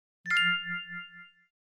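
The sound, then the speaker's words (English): A bell gives a single clear ding, struck once, with a bright metallic tone and a steady ring that fades away over about a second, heard alone. “Bell. Bell. The bell rings when the gate opens.”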